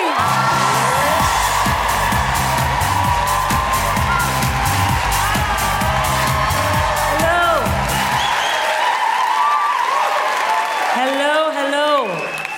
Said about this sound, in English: Put your hands together and make incredible woo-hooing, welcoming noises for the wonderful Sindhu V.